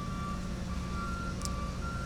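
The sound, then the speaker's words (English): Reversing beeps from a tracked paving machine with tank treads, two drive wheels and six idlers backing up along a street: a steady, high electronic tone repeating in regular pulses over a continuous low engine rumble. “So now they're going to back up. They're going to back the paving machine up.”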